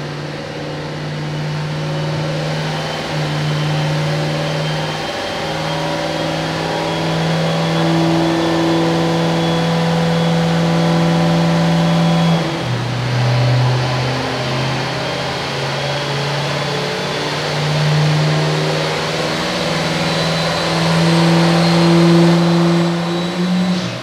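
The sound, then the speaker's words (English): A Duramax diesel truck engine revs and accelerates during a competition run. Its loud, sustained drone climbs slowly in pitch, dips briefly midway, then keeps rising. “Last Duramax of the day. Coming up into the RPM window. Slowly but surely climbing speed.”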